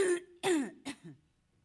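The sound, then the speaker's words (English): A smoker's coughing and throat clearing: three rough, raspy bursts in quick succession, each shorter than the last, then quiet. “some people have been saying you shouldn't be smoking, and they have a point, so you all now have to deal with my coughing.”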